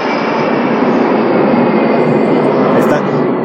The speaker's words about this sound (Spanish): Ahorita que pase este avión, este.